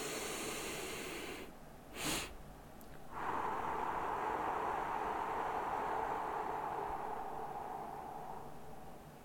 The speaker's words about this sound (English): So you should be really full at the top, and then long exhale.